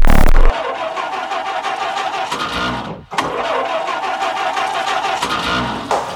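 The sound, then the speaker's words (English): A car engine is started at ignition with a loud initial burst, then settles into a steady, broad, roaring run. The sound briefly drops out midway, then resumes at the same level. “We have ignition.”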